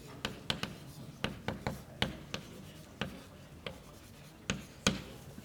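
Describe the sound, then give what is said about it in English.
Notes written by hand: many sharp scratchy pen strokes and taps in an irregular rhythm, with brief quiet gaps between bursts and no talking. “Okay, just giving a name for it and writing it for the posterity.”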